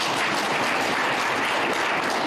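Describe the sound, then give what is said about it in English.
A round of applause from an audience at a community event, a brief, moderately soft wash of many hands clapping evenly with no voices on top. “they deserve a round of applause.”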